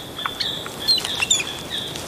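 Chilean flicker woodpeckers calling while foraging for ants on tree branches: a few short, high, squeaky chirps rise above a steady hiss, with no voices.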